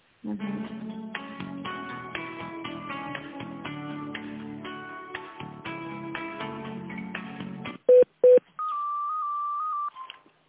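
A telephone call being transferred: a tinny melody plays on the line, then two short loud dialing beeps, followed by a long steady tone before it cuts off.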